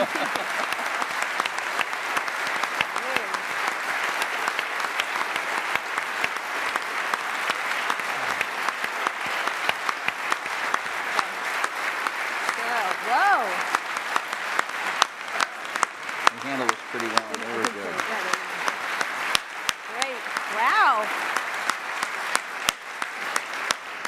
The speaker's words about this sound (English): Oh, standing O. Thanks. Have we ever had a standing O here?